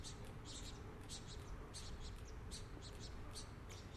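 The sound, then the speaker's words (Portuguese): Saffron finches (canário-da-terra) sing in lively bursts of bright, high chirps and trills that repeat across the whole stretch over a steady low background noise. “Os canários da terra, por outro lado, bem animados.”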